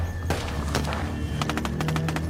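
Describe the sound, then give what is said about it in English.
Gunfire from attackers with AK-47s shooting into a car during a chase: sharp cracking impacts, first a few spaced shots, then a quick cluster of rapid hits, over a steady low rumble. “Okay, that's gunfire. Okay, we've just come under attack.”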